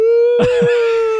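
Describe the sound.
A voice imitates a sobbing cry: a sustained, steady wailing tone broken early by two short, choked catches, then held to the end.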